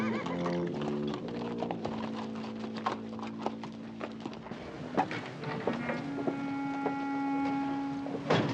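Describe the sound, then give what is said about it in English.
Hooves clip-clop in an uneven, steady run as a deputy leads several horses away, heard over sustained musical tones. “Get them out of the sun, I guess. Deputy Rudd leads the horses away.”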